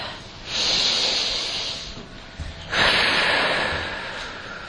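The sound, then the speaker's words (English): A deep breath is taken alone: a long, airy inhale is followed after a short pause by a longer, hissing exhale that slowly fades. “Let's take one deep breath.”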